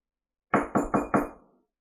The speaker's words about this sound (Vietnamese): Một hồi tiếng gõ cửa vang lên, Thạch Mục